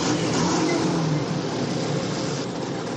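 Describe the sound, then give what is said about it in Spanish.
Tanks, motorcycles and troop trucks roll out through a town wall in a dense, unbroken roar of military engines. The sound stays loud and steady for the whole clip, with no voices. “Un soldado detiene a los tanques. motoristas y camiones con tropas salen por la muralla y pasan ante ellos.”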